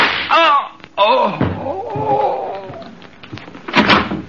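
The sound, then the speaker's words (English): A gunshot sound effect in a radio drama: sharp, hard bangs cut through strained, shouting voices, loud and abrupt against the tense vocal cries. “A joke? You just shot him.”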